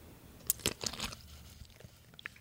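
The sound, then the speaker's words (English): A pickle is bitten into with a big bite. A few sharp, crisp crunches come close together, followed by softer chewing, all fairly quiet. “It's a slippery pickle. All right. Here we go. All right, take a big bite. Let me see if we get a good crunch.”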